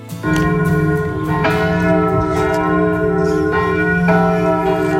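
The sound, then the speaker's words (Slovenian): Church bells of the Basilica of San Francesco in Assisi ring loudly in continuous overlapping peals, with rich sustained tones and many repeated strikes. “Zvonovi Basilike San Francesco Assisio.”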